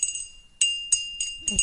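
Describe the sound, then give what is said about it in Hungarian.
Ajka crystal glass bell ringing on a table, with a bright, high tone that lingers between a few quick strikes, each strike adding a fresh shimmering chime. “Egy üvegcsengő az asztalon. Ajkai termék? Ajka kristály természetesen.”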